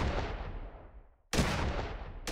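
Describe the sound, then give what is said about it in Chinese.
A shotgun loaded with number six shot fires several rounds into the dark farmyard at night. A few sharp, loud blasts each carry a long, rumbling tail that decays before the next report. “就拎起他经常摆在睡房角落的枪，向黑暗处射了几发六号弹。”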